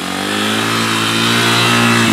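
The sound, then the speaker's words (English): A trail motorcycle engine revving at high RPM in too low a gear gives a loud, steady buzzing drone that holds without a break for the whole stretch, with no talk over it. “if you're riding in a gear too low, the engine RPM is going to be too high,”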